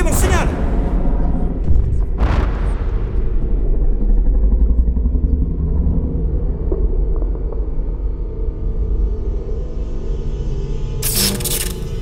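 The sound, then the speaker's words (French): A power generator starting up again, with a steady low engine rumble throughout. Short, harsh noise bursts come near the start and again at the end, and voices speak over it. “Le courant. Le générateur a dû repartir.”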